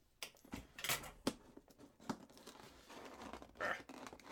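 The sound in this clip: Packaging noises as a HoloLens box is opened: faint crinkling and tearing of wrap, with scattered light taps and clacks of cardboard and plastic at an irregular pace.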